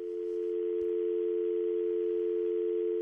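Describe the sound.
A continuous telephone tone follows a caller's dropped line, holding one steady, unchanging hum at a constant level for the whole stretch, with no voices over it.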